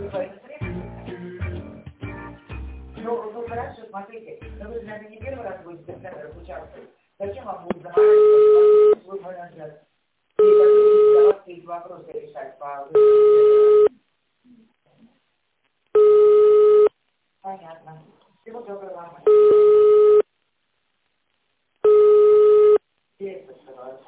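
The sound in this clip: Telephone line tones sound while an automated call is being connected: a voice talks at first, then six steady, evenly spaced beeps follow, each separated by a silent pause.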